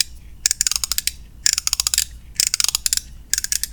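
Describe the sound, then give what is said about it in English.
A somewhat worn watch winder mechanism turns with rapid ratcheting clicks, coming in four short bursts separated by brief pauses, crisp and fairly loud over a faint low hum. “I've been making this noise with my watch winder. Oh, my watch winder's not doing so good.”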